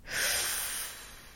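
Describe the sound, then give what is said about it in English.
A full, deep cleansing breath drawn in while the belly expands: one soft, steady rush of air that swells quickly and fades after about a second, with no voices. “I want you to take a couple of cleansing breaths with me. Draw in a full breath, extending your belly,”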